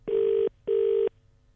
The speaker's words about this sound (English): To start with, though, we had to dial Ireland.